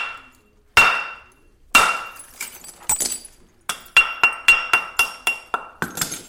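Sharp, ringing clinks of stone knapping as a hammerstone strikes flakes off a stone block. A few widely spaced blows come first, then a quicker run of many bright cracks.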